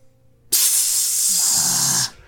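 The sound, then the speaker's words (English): Sprinklers spray liquid chocolate from concealed nozzles in a loud, steady hiss that starts abruptly and runs for about one and a half seconds before cutting off sharply. “As suddenly, from concealed nozzles all around, sprays of liquid chocolate begin coating the swarm”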